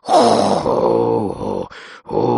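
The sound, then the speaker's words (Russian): A voice imitates a serpent breathing heavily with a long, low, harmonic groaning exhale. A brief breathy gust follows, then another strong groan begins. “Слышу, как змей дышит.”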